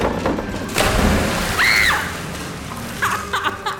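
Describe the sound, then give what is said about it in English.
A belly flop into water makes a heavy thud and splash, followed by sloshing water under a steady noisy background. “Yo, what are the odds you do a 360 belly flop, eh? Oh, one in one, bro. I'll do it right now.”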